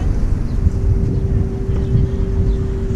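A boat engine running in reverse with a little more throttle, heard as a steady, loud low drone with a constant hum and rushing wind noise throughout.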